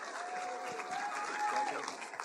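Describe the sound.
A church audience applauds to welcome a pastor's wife as she comes up to share her testimony: steady, dense clapping that holds at an even level throughout, with some faint tonal sound and voices mixed in.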